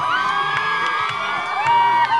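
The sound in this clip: A crowd in a rodeo arena cheers, shouts and whoops during a bareback horse ride, a loud, continuous roar of mixed voices, including high children's shouts, with no break across the short stretch.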